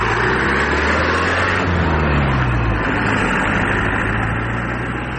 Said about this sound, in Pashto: محمد لالا د خپل زړه موټر سایکل په واسطه په خورا تیزی روان دی